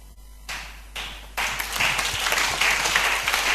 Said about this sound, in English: Yeah, you see the way the clapping is coming. Is somebody in the church?